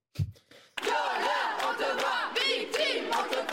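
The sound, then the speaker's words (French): Feminist activists chant slogans and songs in unison as a crowd, protesting a Gérard Depardieu show in Bordeaux. The loud, continuous group voices rise and fall rhythmically after a short opening shout. “C'est un concert de slogans et de chants qui accueille le spectacle de Gérard Depardieu à Bordeaux.”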